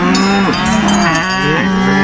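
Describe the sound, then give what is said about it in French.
Cows moo in long, drawn-out low calls that bend and slide in pitch, several overlapping voices sounding loud and continuous with no talk. “Et les vaches de Mélinda sont prêtes à manifester si nécessaire.”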